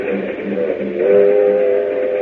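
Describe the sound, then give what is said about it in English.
A train travelling to Miami gives a loud, steady rumble overlaid by a sustained whistle-like tone that becomes clearer partway through. “But meanwhile, on a train to Miami...”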